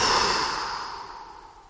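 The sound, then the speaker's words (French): A forceful exhale hisses through clenched teeth during a breathing exercise. It is a single breath that starts loud and slowly fades over almost two seconds. “Nous serrons les dents, nous fronçons le front et nous soufflons.”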